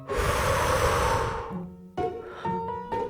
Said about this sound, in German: Lass das mal zusammen machen. Richtig tief. Einatmen. Ausatmen.